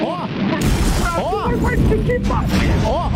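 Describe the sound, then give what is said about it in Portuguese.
A bomb explosion sound effect bursts in as a sudden loud, low rumbling boom that keeps roaring, with short warbling tones rising and falling above it. “Você sabe que daí cai com uma bomba isso aqui. Mais ou menos assim, ó. Olha a bomba.”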